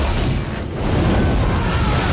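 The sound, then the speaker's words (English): Gunfire and shells from a patrol boat's gun hitting a riverbank, a loud, dense rumbling roar that dips briefly before surging again. “The gunner on the boat starts firing at the shore. The shells obliterate the canopy on Rambo's boat.”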